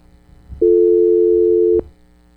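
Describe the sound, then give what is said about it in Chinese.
A telephone line tone sounds after a caller's line dropped on a phone-in call: a single steady, low buzzing tone lasting just over a second, alone against faint background hum. “又甩咗条线啦”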